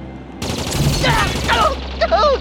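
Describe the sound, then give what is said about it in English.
Rapid gunfire from automated sentry guns: a dense, continuous crackling barrage with strained voices crying out over it. “I have your best friends surrounded with sentry guns! Whatever you fire at me, they have been automated to fire with equal measure at him.”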